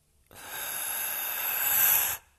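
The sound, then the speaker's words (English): A single long, deep inhale for a breathing exercise: a steady airy hiss of about two seconds that swells slightly before stopping abruptly, alone without talk. “then take a nice deep inhale into the heart space”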